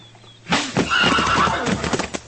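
A horse whinnies loudly at a crowded hitch rack, a long shrill neigh that starts abruptly and wavers before giving way to a few hoof clops, with no talk.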